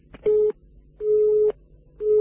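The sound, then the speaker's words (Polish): Telephone busy signal after a dropped call: a steady mid-pitched tone pulsing on and off in even beeps, three of them, the last cut short, with no talk. “Niestety, rozmowa się nam przerwała.”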